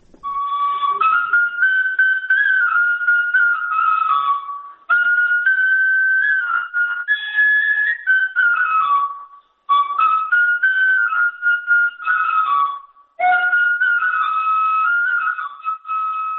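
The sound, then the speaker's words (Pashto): A shpelai, the Pashto flute, plays a solo melody in four long phrases of clear, whistle-like tone with gliding, wavering pitch and short pauses between them. “د شپېلۍ غږولو په اړه د سراج زهیر دا رپورټ اورو چې په یوې نغمې پیلېږي.”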